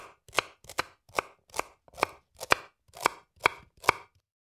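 Onions being chopped with a knife: nine crisp, evenly spaced chops in a steady rhythm, each a sharp thud against the board, clear and alone.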